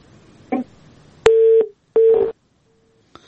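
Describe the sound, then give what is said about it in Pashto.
A telephone busy tone after a dropped call: two steady, mid-pitched beeps of equal length, then a much fainter short beep, with a brief crackle just before the tones. “متاسفانه اړیکه یې پرې شله”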